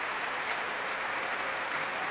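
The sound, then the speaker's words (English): Applause fills a large concert hall as audience members and orchestra players clap together for visiting performers at a world-music concert, a dense, steady patter of many hands that holds evenly throughout without voices. “And members of the concert orchestra joining in the applause for these visitors from the other side of the world.”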